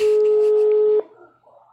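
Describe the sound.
A WhatsApp call ringback tone: one steady, unwavering electronic tone holding a constant pitch for about a second before cutting off abruptly, leaving only faint low-level sound behind.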